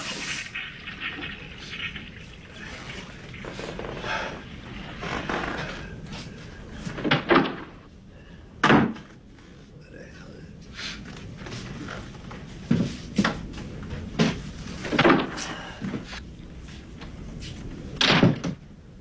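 A door closing as Rocky goes into the toilet: several dull thuds and knocks at uneven intervals, with quieter stretches of faint rustling in between.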